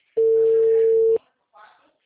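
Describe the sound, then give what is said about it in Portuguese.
A telephone busy signal sounds as one steady tone lasting about a second. A brief voice follows it. “Telefones atende? Não, né? O número está ocupado.”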